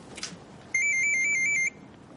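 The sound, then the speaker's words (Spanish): A mobile phone rings in a thriller scene while a woman cooks. Its electronic ringtone is a bright, rapid pattern of high beeping tones lasting about a second, loud and alone. “De pronto su móvil comienza a sonar y ella contesta con una sonrisa.”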